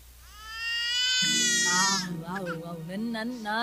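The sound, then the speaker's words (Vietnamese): An infant cries with a sustained, high, strained wail, then breaks into shorter sobbing cries. A lower adult voice sounds underneath. “Nín đi con. Chút nữa má Mười đem sữa về má Hai cho con bú nha.”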